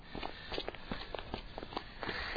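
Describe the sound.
Footsteps of someone walking, a string of many soft, evenly spaced steps at a steady pace over a constant low background noise.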